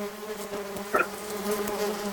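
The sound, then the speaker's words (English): A swarm of bees buzzes in a steady, dense drone, with one brief, louder flurry of buzzing near the middle before it settles back. “I'm not getting stung, but the bees are all over me and they're tickling me.”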